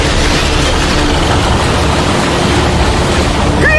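Loud, steady rushing roar of surging water and wind as a cartoon ocean-current wave device starts up, continuous and unbroken throughout with no talking, ending in a short rising whistle.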